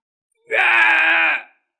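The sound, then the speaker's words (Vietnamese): A monstrous beast howls in pain: one loud, drawn-out harmonic groan that swells in quickly, holds steady for about a second, then fades away. “Giới thú Ma La Tát gào lên một tiếng đau đớn.”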